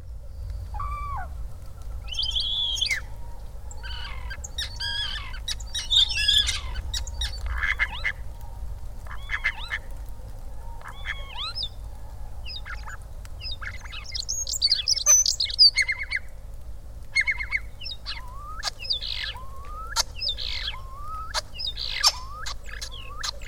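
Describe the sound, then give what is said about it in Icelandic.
A starling mimics other birds' calls, pouring out a varied stream of many chirps, whistles, and hoot-like notes in quick succession over a low, steady hum. “Við heyrum aftur þennan hæfileika stara og þið hlusti vandlega eftir mismunandi eftirhernum.”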